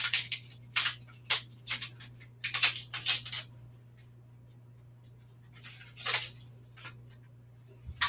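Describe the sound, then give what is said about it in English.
Dry crackle and rustle of a sheet of nori being folded in half while making a California roll, coming in many short crisp bursts over a steady low hum. “Just gonna get my nori and fold it in half.”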